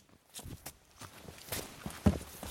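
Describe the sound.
Footsteps of hikers climbing a rocky mountain trail in the Adirondacks, heard as faint, irregular scuffs and knocks. One sharper step lands near the end.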